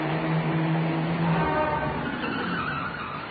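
A car's engine and tire noise roll past steadily and loudly, with a faint whining tone riding on top, easing off slightly toward the end.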